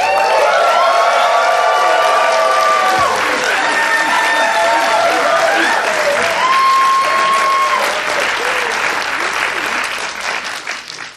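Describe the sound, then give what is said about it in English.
A standing ovation at a live show in Toronto: sustained, loud crowd applause with cheering and whistles, holding steady for most of its length before thinning out at the end. “It's awesome. I got a standing ovation from my wife there.”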